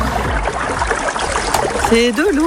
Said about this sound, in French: C'est de l'eau qui coule.